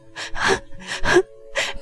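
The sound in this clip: A woman panting heavily and breathlessly: three loud, ragged gasps in quick succession, each a rush of breathy air, with no speech.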